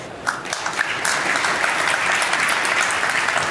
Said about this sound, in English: so please give a warm welcome to Anjali Möller.